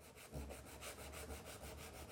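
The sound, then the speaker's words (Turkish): Sandpaper rubbing over old wooden furniture during a repair, a steady rasping scrape that pulses in many even, rhythmic strokes at a fairly loud, constant level. “Yeterince düzlendi. Şimdi iyice zımparalayıp nasıl göründüğüne bakma vakti.”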